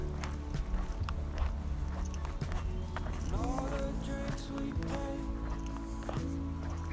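Footsteps of someone walking outdoors along the tree-lined edge of a green belt, a few steady crunching steps over a constant background, with occasional bird chirps rising above them.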